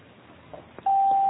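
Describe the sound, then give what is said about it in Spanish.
A voicemail beep sounds as one loud, steady, high tone that starts after a short, quiet line with a few faint clicks and holds unbroken to the end. “Por favor, deje un mensaje después del tono.”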